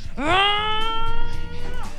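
Car tyres squeal as the car spins in a tight spot. The sharp tonal squeal rises quickly, then holds a steady high whine for over a second above a low rumble.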